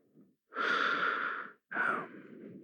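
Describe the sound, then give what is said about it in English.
Slow, relaxed breathing from a person sitting comfortably, with two long, soft breaths, each lasting about a second, separated by a short pause, and no talking. “I just sit and listen to my breathing for a while, okay?”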